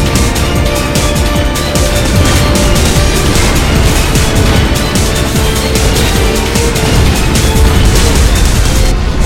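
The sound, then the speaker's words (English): Long-range artillery blasting in a pre-alpha video game: a dense, continuous roar of booms and explosions that stays loud throughout, with no clear gaps between individual shots. “You see we're getting hit with some long-range artillery, so we're going to zoom in here. You can see it blasting away.”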